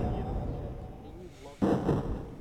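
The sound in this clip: Artillery fire from the video game Howitzer, also known as Scorched Earth: a low rumbling bed with faint rising tones, then a sudden loud blast that slowly decays.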